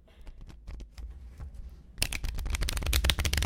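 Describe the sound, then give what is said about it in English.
Playing cards are shuffled and bridged. Soft, rapid flicking for about two seconds gives way to a louder, dense fluttering cascade of cards. “Oh, that was really nice. When that card bridge is just right.”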